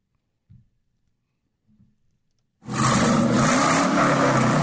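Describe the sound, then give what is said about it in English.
An extremely loud vehicle: after near silence and two faint thumps, a sudden heavy roar starts and holds steady and loud to the end. “I'm sorry, can you hear me? There's an extremely loud vehicle.”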